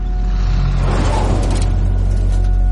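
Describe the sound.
Heavy military vehicles, tanks and trucks, roll past in fog alongside armed soldiers in gas masks, making a loud, steady low engine rumble with grinding, mechanical noise throughout and no voices.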